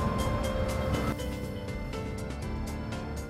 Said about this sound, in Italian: Quello che avete ascoltato è un test drive di un'auto elettrica.